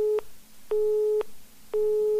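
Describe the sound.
Telephone busy signal on a hospital's specialist-clinic registration line: a steady mid-pitched tone pulsing on and off in even half-second bursts with equal gaps, alone.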